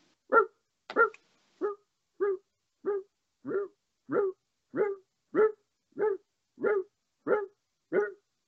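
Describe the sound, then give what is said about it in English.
A person imitates a dog barking, giving thirteen evenly spaced, short, throaty woofs in a steady rhythm, each clearly separated by silence, with no other sound around them. “I bark at him like a dog. And then he gets on the floor on all fours, and he's like,”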